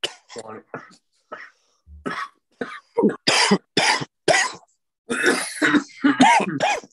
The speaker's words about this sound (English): Everybody just starts coughing when he says 420.